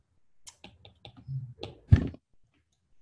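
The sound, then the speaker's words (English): Quiet typing on a computer keyboard as a word is entered, a few scattered key clicks with one louder tap near the end, then silence. “And let me write this magic word, entanglement.”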